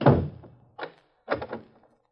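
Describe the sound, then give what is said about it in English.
A door being shut and locked, a room secured with a keypad lock: one heavy thunk, followed by two lighter clunks of the lock being worked. “I lock him in. Here's the keypad.”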